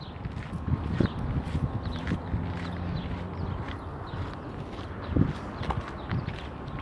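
Footsteps of someone walking outdoors: many steady, evenly paced steps over a constant rumble of ambient noise, with no talking.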